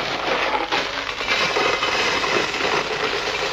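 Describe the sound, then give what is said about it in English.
Gravel shaken in a box gives a steady, dense, grainy rattle that continues without pause at an even loudness throughout. “What have we got here? A box of gravel.”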